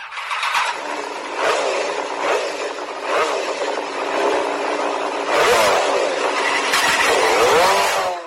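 A new motorcycle's engine revs loudly in a steady, rough drone. The pitch repeatedly swells and climbs with sharper throttle bursts toward the end, and no one speaks.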